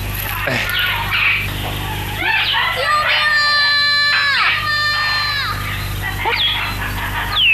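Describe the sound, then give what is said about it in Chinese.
A child crying out, with high, wavering wails that rise and fall over a steady low rumble, mixed with other shouting voices. “你听，确实是个孩子。”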